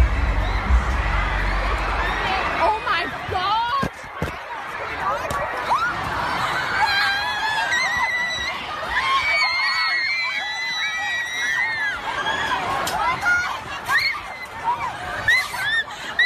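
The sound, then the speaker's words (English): Panicked crowd of young people, many of them girls, screaming during the Manchester attack: high, frantic screams and shouts overlap in a loud, continuous din, with people talking and yelling amid the chaos. “but just listen to how quickly the panic sets in here in Manchester.”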